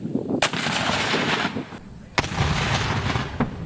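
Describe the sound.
Mortar fire during army artillery training by field artillery soldiers cross-training as mortar men, with a few sharp, booming reports cracking out over continuous rumbling noise.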